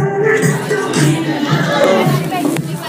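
A loud crowd at a dance fills the space with dense, continuous shouting and chatter, unbroken and overwhelming.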